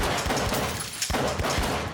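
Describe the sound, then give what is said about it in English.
Sharp gunfire as a gun is fired through a wall, a rapid string of loud cracks with a brief gap near the middle before the shots resume. “Relax. This is Florida. Everything's a licensed gun range. You just shot through a wall, man.”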